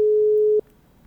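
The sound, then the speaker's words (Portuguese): A single steady telephone ringing tone heard while a call is being placed: one sustained mid-pitched beep lasting a little over half a second, then it cuts off into near silence with no talk. “Tá chamando ou tá ligando esse negócio aqui? Chamando? Sim. Chamando significa que tá tocando lá.”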